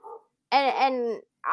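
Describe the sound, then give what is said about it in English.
A dog guarding the house barks loudly in one drawn-out, tonal burst, with brief quieter sounds just before and after it. “I'm gonna apologize for my dog barking in the background. He's just protecting the house.”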